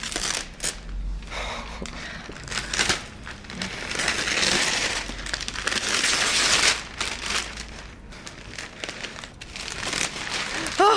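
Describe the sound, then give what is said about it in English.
Crinkling and tearing of wrapping as a large package holding a person, with air holes cut in it, is unwrapped, in irregular rustling and crumpling bursts that swell and fade throughout. “And here's the moment where she unwraps.”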